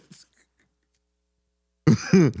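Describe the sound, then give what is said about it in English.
A person coughs and clears their throat. A faint, short cough comes first, then after a pause a louder, rasping, voiced throat-clearing in two quick bursts. “Are you done coughing?”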